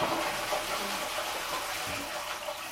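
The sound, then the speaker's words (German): Running tap water pours over hands being washed, a soft, even rush that stays faint and steady throughout. “Hände waschen, muss ein jedes Kind. Hände waschen.”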